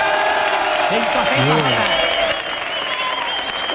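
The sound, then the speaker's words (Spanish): A studio audience applauds and cheers in dense, loud, steady clapping throughout, and a voice briefly shouts over the applause partway through. “Hoy tenemos un público de 5 Jotas que suena así de fuerte.”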